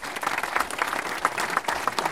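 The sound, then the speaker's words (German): Applause from an audience of about 120 people after a film screening: loud, lively clapping with sharp individual claps standing out through a short burst. “Am Ende gibt es tosenden Applaus.”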